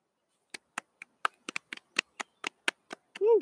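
Many sharp hand claps in an uneven, sparse pattern come from a small live audience of just one person, ending with a brief rising whoop of a cheer.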